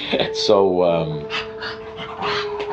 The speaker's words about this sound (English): So, that's just my dog again, I'm sorry.